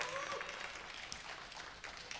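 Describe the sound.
Audience applause welcoming viewers watching online, a dense and steady wash of clapping held throughout at a faint level.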